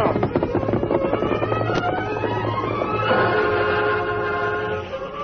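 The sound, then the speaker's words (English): Westbound freight train rolling through a small western town: a steady rumbling clatter with a sustained, tonal whistle-like chord sounding through the second half before the sound eases off. “But he came to life when the westbound freight train rolled through town. Well, there goes old 97.”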